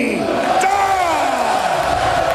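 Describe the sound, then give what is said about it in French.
A hockey arena crowd roars steadily after a Montreal Canadiens goal, while a public-address announcer's long, drawn-out call slides downward in pitch over the cheering. “On entend la foule”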